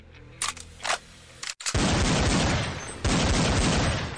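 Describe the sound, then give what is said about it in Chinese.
Gunfire from a sniper rifle and a pistol: after a few brief sharp bursts, a loud, dense barrage of shots runs continuously to the end. “两个人竟一边移动一边射击”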